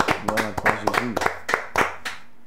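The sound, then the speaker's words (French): A church audience claps in a quick, steady rhythm of many sharp hand claps during worship, with a voice sounding between the beats. “Acclamons pour notre Dieu.”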